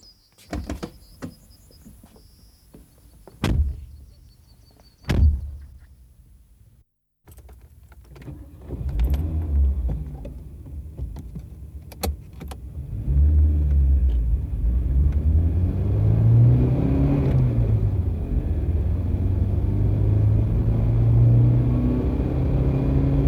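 A vehicle is boarded, started and driven off: a few sharp door thumps and clicks come first, then the engine catches and a rumble builds and grows louder, holding steady under rising engine tones.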